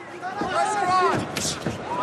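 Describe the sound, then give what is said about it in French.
Middle kicks landing in a fast MMA fight, a few sharp, dull thuds striking at irregular intervals, half-buried under a steady wash of voices and crowd noise. “Oh là là, vous entendez le bruit de ces middle là. Toujours en train de se déplacer, toujours en train de frapper, rapide, explosif, actif.”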